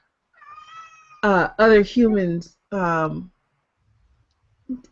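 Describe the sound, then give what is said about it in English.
A female cat meows loudly and frantically in a rapid series of several drawn-out, wavering cries, after a fainter whining call and before a stretch of silence. “my cat's like losing her mind”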